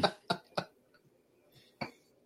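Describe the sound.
A coughing fit: three sharp, harsh coughs in quick succession, then a pause and one more cough, each loud and abrupt against a quiet background.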